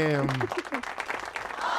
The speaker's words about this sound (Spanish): ¡Un aplauso de primera vez para Meche!